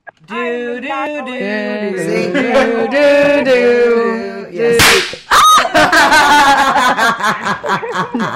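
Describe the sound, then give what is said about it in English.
A small confetti gun fires with a sharp, loud burst midway, set among laughing and chattering voices before and after the shot. “She shot this little gun that has little confetti that comes out.”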